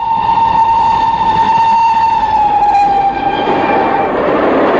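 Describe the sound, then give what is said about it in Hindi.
A train horn sounds one long, steady, loud blast with bright harmonics, held for several seconds before giving way to a broad rushing rail noise. “बच्चों, रेलगाड़ी तो तुमने देखी होगी, है ना?”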